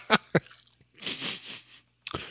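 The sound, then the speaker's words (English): Someone chomps on food, two sharp crunchy bites, then a longer run of wet chewing and another crunch. “Oh, he's chomping.”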